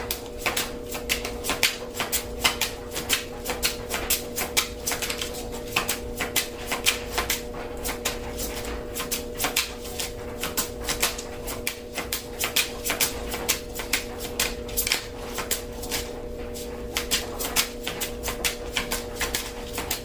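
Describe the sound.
A deck of cards is shuffled at length, a continuous stream of rapid, soft clicks and fluttering riffles with a faint steady hum underneath.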